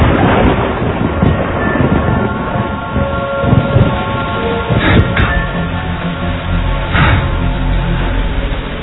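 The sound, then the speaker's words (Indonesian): Rain starting to fall: a dense, steady hiss of drops that stays loud throughout, with low rumbling wind buffeting underneath and a few brief brighter bursts, and no voices. “Tak berapa lama, hujan pun turun.”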